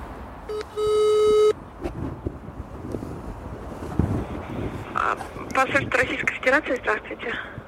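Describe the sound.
Telephone ringback tone while calling a gated building that has cameras on every gate: one steady, medium-pitched beep sounds near the start, then comes a rustling, wind-like background and voices toward the end.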